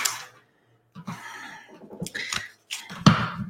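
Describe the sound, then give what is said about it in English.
A dropped card landing on the floor makes a few light, papery taps and rustles in separate short bursts, each brief and moderately quiet, with silence between them. “That card fell on the floor for all of our audio only listeners.”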